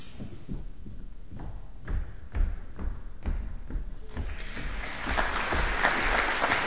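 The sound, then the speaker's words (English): A studio audience applauds performers onto the stage at a TV cooking show taping, with low thumps early on before the clapping swells into a dense, loud wash in the final seconds. “The TV production assistant announces the beginning of the opera, and the audience welcomes the performers to the stage.”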